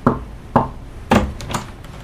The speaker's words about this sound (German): Klopfen Sie dreimal, dann kommen Sie rein.